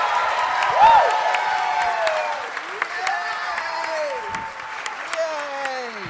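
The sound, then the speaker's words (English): Studio audience applause and cheering welcoming a guest onto a show: dense, steady clapping for the whole stretch, with whoops and shouting voices rising and falling over it. “Give it up for Dan!”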